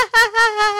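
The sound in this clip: A voice imitates a laugh like a seagull with three loud, high, nasal squawks of steady pitch in quick succession.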